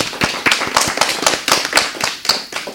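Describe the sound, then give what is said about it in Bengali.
An audience claps for a child performer at a children's show, many crisp claps in a fairly steady, quick rhythm, loud and sustained throughout. “আমাদের ছোট্ট বন্ধুর জন্য এবারে জোরে একটা করতালি।”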